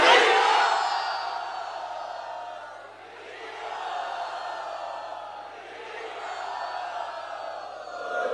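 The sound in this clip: Assembled devotees at Radha Gopinath Temple cheer loudly in welcome, a roaring mass of raised voices that surges at the start, dips briefly twice and swells again.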